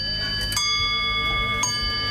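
Church bells ringing, with two clear strikes about a second apart over long, sustained, shimmering overtones that hang in the air between them.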